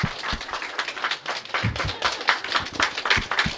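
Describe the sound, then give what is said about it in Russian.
An audience clapping at the end of a seminar, a lively, uneven patter of many hands that stays fairly loud throughout. “Я слышу, из интернета тоже там хлопают все.”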